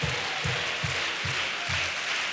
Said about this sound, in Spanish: Sigan aplaudiendo, sigan aplaudiendo.